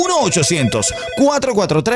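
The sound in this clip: A telephone rings after a toll-free number is dialed, its ringing tone running under other tonal, voice-like sounds for the whole short stretch.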